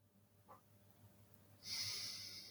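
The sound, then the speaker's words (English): A slow, deep inhale during a guided meditation, a soft breathy rush that begins after a quiet stretch and holds steady for under a second, with no talking. “So inhale, count of five,”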